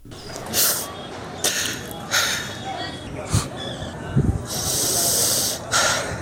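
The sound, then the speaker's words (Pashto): Sobbing of an elderly man, a tribal elder from Jodari village in Hesarak, Nangarhar, grieving after a bombing: several harsh, breathy gasps and sniffling sobs recur at irregular intervals over a steady low background. “دا د هسکې مینې د جودري د کلی د یو سپینګیری د سلګو غږ دی.”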